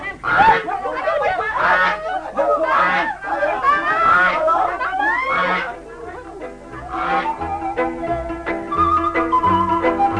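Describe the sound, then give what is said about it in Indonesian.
A goose honks as it is being caught. The bird gives many loud, nasal, wavering honks in quick succession, mixed with excited vocal sounds throughout. “Setelah angsa itu dapat ditangkap oleh Ratri, ternyata tangan Ratri melekat pada angsa itu.”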